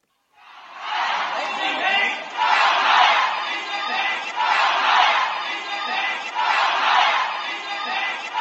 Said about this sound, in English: That's the sound of protesters in Shanghai chanting "Down with Xi Jinping."